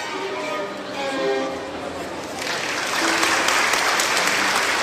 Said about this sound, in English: As you can hear, there's an appreciative audience here.